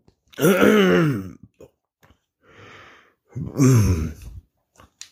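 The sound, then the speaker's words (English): Burping and choking from heartburn: two loud, rough, guttural bursts separated by a quieter breathy exhale, with short clicks and breaths in between. “Choking here. Hold on a second. All right. We're just going to play through this one. A little heartburn there.”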